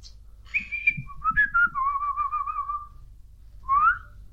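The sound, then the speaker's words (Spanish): A person whistles a short, wavering tune. It opens on high notes, slides down to a long warbling lower tone, and ends with a brief rising note, heard alone over a faint low hum. “¿Vosotros sabéis silbar?”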